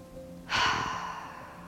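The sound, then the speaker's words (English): A single deep breath taken during a relaxation and breathing exercise: a soft, breathy rush of air that starts suddenly, then slowly fades, heard alone and fairly quiet. “take a split second, take a deep breath”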